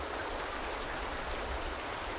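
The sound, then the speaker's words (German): Steady rain falls as a continuous, even hiss of dense drops with no breaks, moderately faint and alone with no voices. “Es regnet.”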